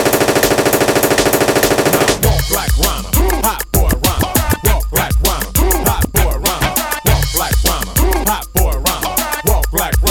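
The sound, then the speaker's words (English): A machine-gun fire sound effect opens with a sustained rattle of rapid shots, then gives way to loud, punchy hits repeating in a steady rhythm. “Shoot your guns in the air. Three times in the air. Shoot your guns in the air. Machine gun.”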